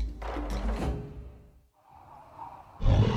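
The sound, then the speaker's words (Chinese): An animal roars with hostility at a woman in a snowy setting: a deep, rumbling growl-roar lasting over a second that fades out, followed by a softer airy swell and a heavy low thump at the end. “小五突然对着那女人咆哮了一声，似乎有些敌意”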